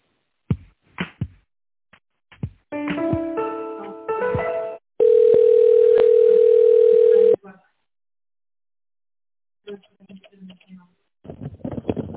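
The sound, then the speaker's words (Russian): Telephone line tones while a call is transferred: a run of short beeps and chord-like tones, then one long, loud, steady tone lasting about two seconds, followed by near silence with a few faint blips. “Хорошо, давайте вас со специалистом соединим.”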